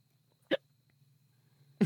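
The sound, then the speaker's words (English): A person hiccups twice, each an abrupt, sharp catch of breath, the two about a second and a quarter apart over a quiet, steady low hum. “The hiccups go really well, actually. They're canon now.”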